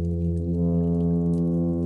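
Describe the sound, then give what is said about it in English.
Plainfin midshipman fish singing underwater in waters off Sausalito, California: a steady, low droning hum with strong stacked harmonics that holds unbroken for the whole clip, with no voices. “One of my all-time favorite recordings is the plain fin midshipman.”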